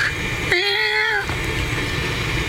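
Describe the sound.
A cat lets out a single drawn-out meow, clear and harmonic, whose pitch eases slightly downward before it stops. A steady, fairly loud background noise runs underneath and carries on after the call.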